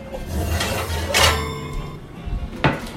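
A lasagna dish is pulled out of the oven with oven mitts, giving a few light clinks and clatters of cookware, fairly quiet, with no talk.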